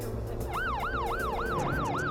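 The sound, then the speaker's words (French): An ambulance siren sounds as a child is rushed to a children's hospital. It is a loud, steady, rapid yelp whose pitch swoops up and down in quick repeating cycles. “Une ambulance le conduit de toute urgence à l'hôpital pour enfants.”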